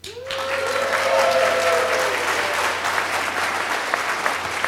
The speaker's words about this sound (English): recorded at the where? in front of a real audience, as you can hear. Audience, make yourself known.